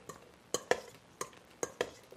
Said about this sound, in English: so some salt and pepper and celery seed onto our potatoes, and then we're just gonna stir them around